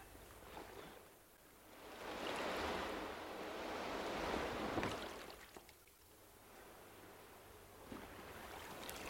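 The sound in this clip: Sea waves wash ashore at the evening ebb tide, making a soft, hissing surge that swells and falls back in slow rises over a steady bed of wind noise.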